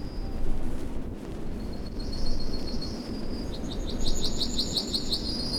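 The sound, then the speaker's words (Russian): A small songbird sings in bright, high chirps, first thin and drawn out, then a quick run of repeated ringing notes toward the end, over a steady low rumble of background noise. “Да тут целый оркестр. Какая-то птаха.”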